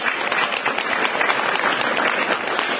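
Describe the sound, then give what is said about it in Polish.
Applause from an audience as local residents are introduced, a thick, steady patter of many hands that stays even for its whole length with no talk. “Wielkie”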